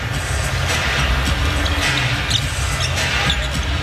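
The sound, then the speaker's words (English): A basketball dribbled during a professional basketball game: a few dull, thudding bounces spaced unevenly over a steady wash of arena crowd noise. “With the dribble outside, Quinn Cook”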